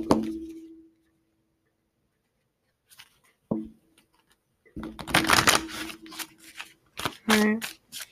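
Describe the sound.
Shuffling of a deck of tarot cards: a few dense, papery riffling bursts in the second half, preceded by a short tap. A brief voice sound is heard at the start and another near the end.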